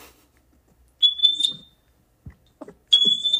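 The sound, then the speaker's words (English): A smoke alarm going off in a house gives two high, piercing electronic beeps, each lasting well over half a second. A quiet gap holds a few faint low knocks between them. “No, that's a smoke alarm going off in the house.”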